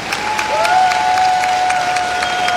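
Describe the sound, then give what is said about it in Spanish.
Steady crowd applause from an audience at a festival in San Sebastián de Mariquita, Tolima, Colombia, during an awards presentation, continuous and even in loudness, with a sustained high tone running through it. “Que suene ese aplauso, por favor.”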